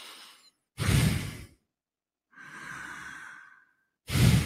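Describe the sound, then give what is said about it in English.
A person imitates a sleeping person's breathing: slow, deep breaths split by silent pauses, one short and loud, then a longer, softer airy breath carrying a faint whistle, then another loud breath. “if you ever get the chance to listen to them when they're sleeping, what you will hear is something like this.”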